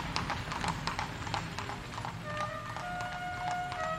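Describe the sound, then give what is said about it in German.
Clip-clopping hooves of horses drawing a stately 18th-century carriage through a town gate on a cool autumn day, with a steady, brisk run of many sharp hoof strikes throughout. “Anstandslos passierte die herrschaftliche Kutsche das Wendische Tor”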